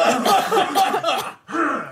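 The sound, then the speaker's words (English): A group of people coughing together on cue: a loud, rough burst of overlapping coughs and throat-clearing, a brief gap, then a second burst of mixed coughs. “Let's all cough. All on three. One, two, three.”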